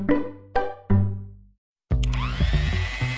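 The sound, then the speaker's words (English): A new stand mixer whipping up cookie dough, its motor kicking in abruptly with a loud, high, rising whine and churning rattle, after three sharp struck tones that ring and decay. “You probably think that's the sound of a power drill, but it's a new stand mixer whipping up something even more powerful, cookies.”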